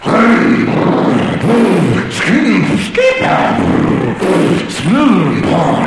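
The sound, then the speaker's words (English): A voice imitates a go-kart engine warming up with loud, gruff, throaty revving bursts. Several rising-and-falling vocal swells repeat with short breaks between them, like an engine being revved again and again. “I'm warming up my go-kart.”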